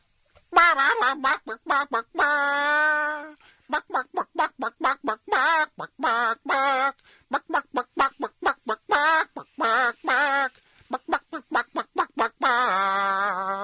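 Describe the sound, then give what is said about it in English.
A rubber chicken squeezed to cluck out a tune: many short, squawking honks in rhythmic runs, broken by a few longer held wailing notes, loud and alone. “Hey, Clucky is clucking his little heart out here.”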